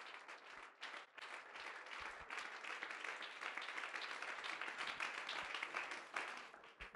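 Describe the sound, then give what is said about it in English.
A church audience claps their hands during a worship service, a dense, sustained wash of applause that stays fairly faint and even throughout. “If you believe that, would you clap your hands unto the Lord?”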